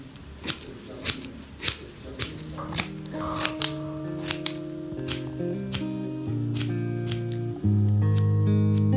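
Scissors cutting short hair during a haircut: many crisp, evenly paced snips, with sustained musical tones underneath that thicken and grow louder toward the end.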